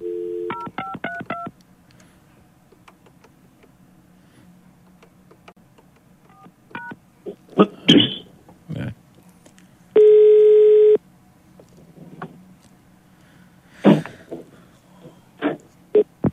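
A telephone number is dialed: a quick run of short touch-tone beeps, then a couple more tones later, scattered clicks, and a steady tone lasting about a second near the end.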